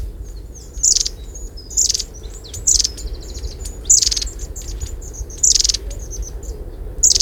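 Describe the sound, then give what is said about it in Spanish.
Thin, high-pitched calls of a long-tailed tit, several short, sharp trilled bursts repeating at irregular intervals, with faint high tonal notes between them over a steady low rumble. “ese tirri finito que a veces cuesta oírle en el campo es el de un pájaro muy, para mí, muy divertido, que es el mito.”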